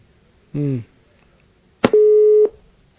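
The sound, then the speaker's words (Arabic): Telephone busy tone after a call line drops: a single steady mid-pitched beep lasting about half a second, opening with a sharp click and preceded by a short voiced burst. “طيب، انقطع الخط.”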